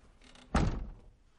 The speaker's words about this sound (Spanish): Ella entra en casa y cierra la puerta.